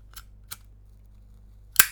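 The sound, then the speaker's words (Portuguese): An original Zippo lighter flicked open and lit: two light metallic clicks spaced apart, then a sharper, louder snap as it is struck, against near silence. “Se quiserem saber, este é o som de um Zippo original.”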